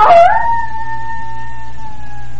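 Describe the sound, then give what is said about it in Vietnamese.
A frightened dog with bristling fur backs away and lets out a crying howl: a short rough burst, then a long, steady, high whining tone that holds its pitch and stays loud. “Nó thụt lùi từ từ rồi sủa lên một tiếng như khóc.”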